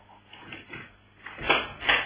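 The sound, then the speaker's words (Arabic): A door being opened in a radio drama: a few muffled clattering knocks build into two sharper bursts near the end, over a dull, band-limited background. “اقولك انا ما هو لازم افتح. لازم اشوف مين.”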